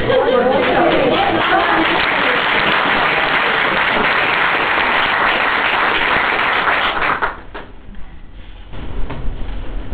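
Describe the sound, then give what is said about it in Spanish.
Audience applause at an Advent 2008 church gathering in Orcasitas: dense, steady clapping fills about seven seconds, then cuts off abruptly, leaving quieter room sound with voices. “Yo creo que merece un aplauso”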